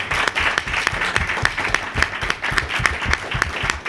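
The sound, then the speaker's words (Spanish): Audience applause at an award presentation: a dense, steady patter of many hands clapping that fills about four seconds at an even loudness, with no voices over it. “Un aplauso.”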